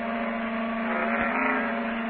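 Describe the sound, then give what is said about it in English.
A red sports car turning into a basement garage, its engine a steady, fairly loud hum that holds evenly throughout, with no voices. “It's 5:25 when the red sports car turns into the basement garage.”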